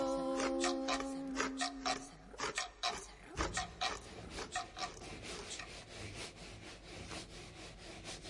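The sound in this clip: A handsaw cuts with many rhythmic rasping strokes in a steady back-and-forth pattern, each stroke a dry scrape. The sawing is fairly loud and continuous, with a few brief held tones at the very start.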